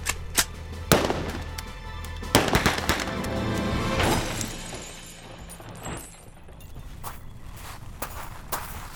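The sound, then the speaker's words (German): Gunshots fired at the tyres of a fleeing bread van: a few sharp, loud cracks spaced irregularly over a low, rumbling vehicle noise. “Schieß in die Reifen!”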